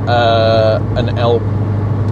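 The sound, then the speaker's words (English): A steady, loud car engine drone heard from inside a car while it overtakes on a road, with vocal sounds over the engine at the start. “Excuse me, I'm doing an overtake that I probably shouldn't.”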